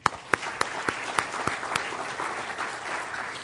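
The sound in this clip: Audience applause at an evening university alumni dialogue event: many hands clapping steadily, with several sharper, louder claps standing out in the first half before the clapping evens out.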